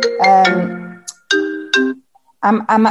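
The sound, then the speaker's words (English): A mobile phone ringtone goes off indoors in a living room. It plays as three loud, bright melodic phrases of harmonic tones with short gaps between them. “that was my phone going off. I need to just make sure that I'm going to switch my phone off before it rings again.”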